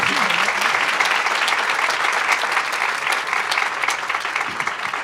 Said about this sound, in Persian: دست بزن، خجالت نکش.